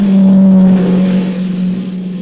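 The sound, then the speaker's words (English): A car approaches with a steady, loud low engine hum and a faint whine, easing slightly in level toward the end. “No, wait. Here comes a car.”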